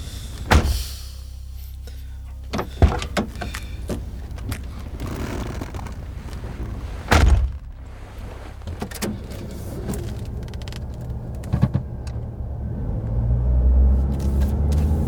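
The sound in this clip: A car door thuds and a car drives along, with a few sharp knocks and thumps over a steady low engine and road rumble that swells toward the end.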